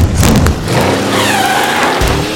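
Car engine revs hard under acceleration as tires skid and squeal, a loud, continuous roar with a rising whine over about two seconds.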